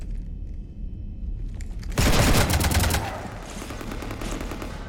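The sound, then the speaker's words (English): Rapid video-game gunfire aimed at a spaceship comes as a dense, loud burst of shots lasting about a second. It rises above a steady rumbling ambience that carries on after the shooting stops. “You want to stop shooting up my ship?”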